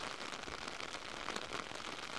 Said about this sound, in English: Whereas before the wind and the rain were lashing into our faces, it's now coming from directly behind.